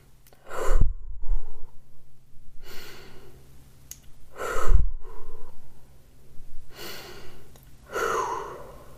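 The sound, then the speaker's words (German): Deep breathing in and out, meant to calm down, comes as a few slow, airy breaths with audible inhales and exhales, separated by short pauses, with no talk. “Atme dreimal tief durch”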